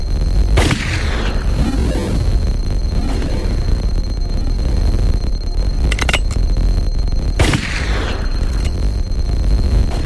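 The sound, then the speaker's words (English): Video game gunshots ring out as a few loud, sharp bangs, spaced irregularly over a constant noisy game background, with a tight cluster of cracks between them. “Are you shooting at me?”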